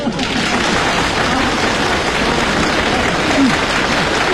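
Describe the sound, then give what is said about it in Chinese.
Applause from the audience at a live comic crosstalk performance: loud, dense, continuous clapping that holds steady for about four seconds. Voices may be faintly mixed in underneath. “先别鼓掌了，别鼓掌”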